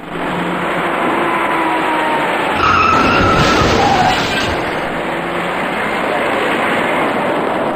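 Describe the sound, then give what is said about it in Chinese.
A dark passenger car skids and rear-ends a slowing car ahead in eastbound traffic: a loud, steady roar of tire and road noise, swelling briefly near the middle before settling back to a constant wash. “驾驶这辆深色小客的司机完全没有注意到前方的车辆已经减慢车速，在毫无措施的情况下，深色小客严重追撞到了前车”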